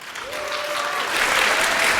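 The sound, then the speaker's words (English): An audience at a congress breaks into applause, a dense, continuous clapping that builds louder toward the end. “Big applause”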